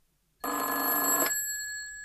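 A telephone rings once, a loud bright bell burst lasting under a second that stops abruptly and leaves a fading, ringing tail.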